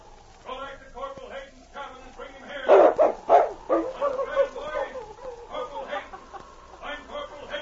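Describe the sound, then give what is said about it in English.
A large dog barks a few times, loud and sharp, amid ongoing talking voices. “The great dog sprang to obey his master's command.”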